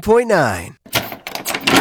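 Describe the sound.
A door-opening sound effect for an advert plays as a short, loud tonal creak that bends up and then down, followed immediately by a voice speaking.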